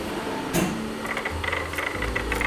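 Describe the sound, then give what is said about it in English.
A sewing machine runs slowly in a NASA thermal blanket lab. A low motor hum sets in partway through under quick, light mechanical clicking, after a brief thump near the start. “You'll hear the sewing machine going. This machine was built to go very fast, but what we do, we have to go very slow.”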